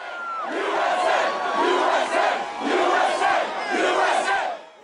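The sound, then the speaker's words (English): A crowd gathers outside the White House celebrating the death of Osama bin Laden. Loud, massed voices chant and cheer in rhythmic swells that rise and dip repeatedly. “On May 2nd, President Barack Obama announced that the United States Special Forces had found and killed Osama bin Laden. Then, the crowd started to gather. Here they are at the White House.”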